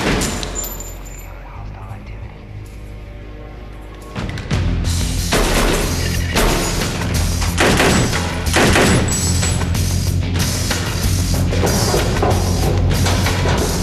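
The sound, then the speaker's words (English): Gunshots in an audio drama as soldiers shoot bodies in a chamber. Several sharp, loud bangs come at uneven intervals over a dense, loud background that begins abruptly after a quieter opening. “He goes up to a body and shoots it between the eyes. Duke and the kid follow suit.”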